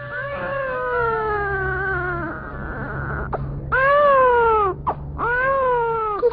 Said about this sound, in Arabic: البنية بتبكي من الجوع يا حمدة.